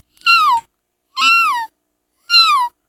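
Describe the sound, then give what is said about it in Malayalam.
Kitten meowing in three separate calls, each about half a second long with a falling, tonal pitch and even gaps between them. The calls are clear and fairly loud, with no voices around them. “പൂച്ചക്കുട്ടി.”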